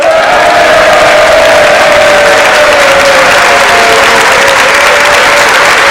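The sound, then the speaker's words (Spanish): A studio audience at a comedians' panel show bursts into loud, sustained applause, a thick unbroken wall of clapping that stays at full level for about six seconds without any talking. “Mi nombre es Pérez Aznar y estoy acompañado de 758.342 personas. ¡Que suenan así!”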